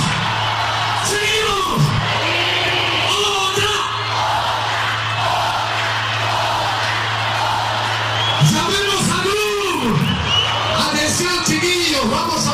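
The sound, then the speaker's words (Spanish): A live rock concert crowd cheers, yells and whoops, calling for an encore after the band's set. The roar is loud and continuous, with shouted calls rising and falling above it in bursts. “Al parecer el animador no quiere que se vaya todavía, la gente no se quiere tampoco, el público pide otra, nos vamos al micrófono ambiental.”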